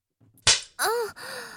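A leather belt lashes once with a sharp, bright crack, followed by two drawn-out voiced cries that waver in pitch.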